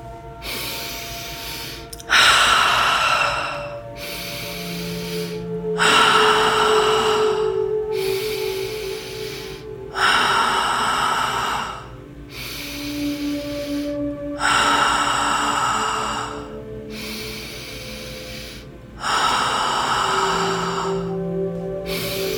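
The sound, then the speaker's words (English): Slow breathing, drawing air in through the nose and releasing it through the mouth: about five long, loud, breathy exhales, each separated by quieter inhales, in a steady unhurried rhythm over a soft sustained tonal background. “Now switch the breath in through the nose and out through the mouth.”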